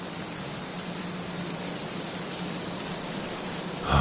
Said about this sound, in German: Oder das hier ist ein Kornfeld.